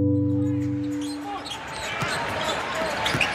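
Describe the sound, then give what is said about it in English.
Playoff basketball crowd noise from a first-round Game 2 between the Warriors and the Clippers in Oakland: after a brief held tonal chord, a steady arena roar follows, with a few sharp ball bounces. “There is Curry with his first shot. It's the first round of the playoffs. Game 2 in Oakland against the LA Clippers.”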